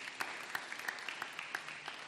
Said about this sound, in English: Clap your hands for Jehovah.